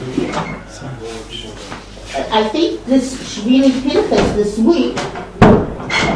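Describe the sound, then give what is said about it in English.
A door is closed with a single sharp thump near the end, after a stretch of a person talking. “I have to close the door because otherwise I can't.”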